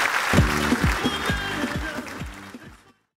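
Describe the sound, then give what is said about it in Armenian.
Audience applause in a TV studio: a noisy burst of many hands clapping that carries on fairly evenly and then cuts off abruptly after about three seconds. “Ձեր բարձր ծափարությունների ներքո։”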